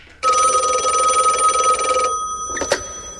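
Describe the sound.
A telephone bell rings in one steady, loud burst of about two seconds and then stops. A single sharp knock follows shortly after.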